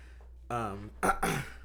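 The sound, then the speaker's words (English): A person clearing their throat: a short voiced hum, then two rough, raspy bursts of air, fairly quiet. “sorry, I have to clear my throat”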